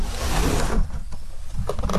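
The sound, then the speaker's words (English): A window is pushed open and propped with a piece of dowel, giving a loud, rough sliding scrape that eases briefly midway before a grinding rush returns. “I think it's time to let in some fresh air. I think it's time to open a window.”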